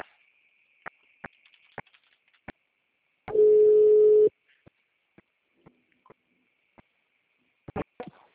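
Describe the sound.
A phone tone after a dropped call: one steady, mid-pitched tone lasting about a second, surrounded by faint scattered clicks.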